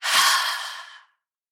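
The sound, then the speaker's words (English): A deep exhale through an open mouth during a guided relaxation exercise: one long, breathy rush of air lasting about a second that softens and fades to silence, with no talking. “Take a cleansing breath. Inhale, shoulders lift up. Open your mouth, exhale, and release.”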